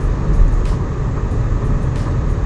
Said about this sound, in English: So, like, right now I'm driving to work.